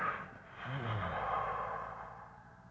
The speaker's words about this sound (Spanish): Que se infle tu pancita al inhalar y soltamos sonoramente.